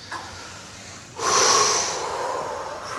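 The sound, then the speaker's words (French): A deep breath drawn in during a guided meditation: one long, airy inhale that swells suddenly, holds full, then eases off gradually, with no talk over it. “Et maintenant, vous prenez une grande respiration,”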